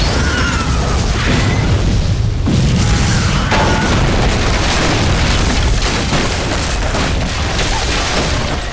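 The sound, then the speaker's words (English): A loud explosion blast beside a road: a dense, continuous roar of low rumble and crackling noise that stays loud from start to end, with no voices. “The detonation deafened him. Even a foot down in the dry ditch, an intense heat singed his shirt. Smoke and dust obscured his vision.”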